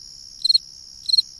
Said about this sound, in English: It's very different from, say, the northern fall field cricket.